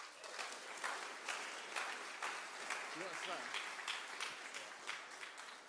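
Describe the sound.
An audience at a church evening gathering claps to welcome a speaker. The applause is fairly quiet and sustained, with many overlapping claps, and a few voices rise briefly in the middle.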